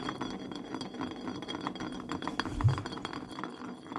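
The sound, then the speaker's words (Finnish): A glass bottle spinning on a surface during a spin-the-bottle game gives a steady rolling rattle with faint clinks that lasts about four seconds and eases slightly at the end. “Nyt pistetään pullo pyörimään.”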